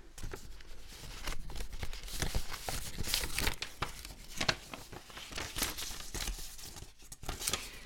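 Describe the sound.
Paper slips are drawn from an envelope, giving a faint stretch of rustling, crinkling and scraping paper noise with many soft, irregular crackles and no talking.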